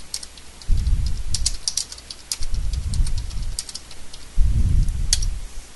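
Typing on a computer keyboard in three separate bursts of rapid keystrokes, each with dull thumps and sharp clicky ticks, separated by short pauses, with no voices.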